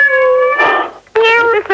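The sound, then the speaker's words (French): A human voice imitating a cat's meow: two loud, drawn-out, wavering cries, the first long and sliding, the second shorter and more nasal after a brief pause. “C'est mon chat, je suis désolée.”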